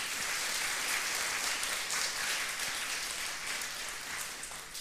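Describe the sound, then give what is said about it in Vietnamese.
Loud, steady applause from an audience of around 200 twelfth-grade students at a morning exam-advice session, a dense clatter of hands that eases slightly at the end. “hãy cho một tràng vỗ tay thật lớn để chào mừng chung”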